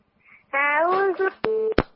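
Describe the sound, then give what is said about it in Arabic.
Electronic telephone tones as a call drops off the line: a warbling tone, then a short steady beep broken by sharp clicks. “قطع الاتصال. كنا عايزين نسمع سلمى.”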